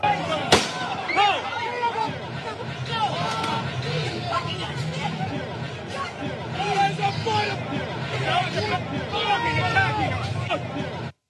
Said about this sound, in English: That is unbelievable. He literally opened fire. There was no reaction from the cops.